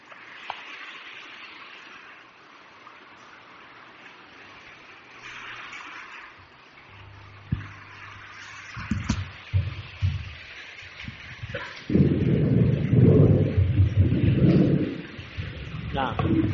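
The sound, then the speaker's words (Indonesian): Rain starting along with thunder: low knocks and rumbles first, then a dense, loud rush of rain and deep thunder rumble filling the final stretch. A man talks earlier on. “Mulai hujan ini.”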